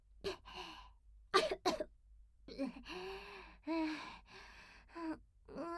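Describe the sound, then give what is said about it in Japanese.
Faint coughing after choking on something in the mouth: a few sharp, harsh coughs come first, followed by strained, voiced gasps and groaning breaths. “むせた。ちょっと口すすいできますわ。”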